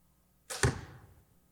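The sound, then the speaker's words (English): A single shot fired at a target set up behind a TV. There is one sharp release and a hit, followed by a brief fading rush. The sound is fairly faint against near silence. “behind the TV over there, there is a target, and he's going to shoot at it.”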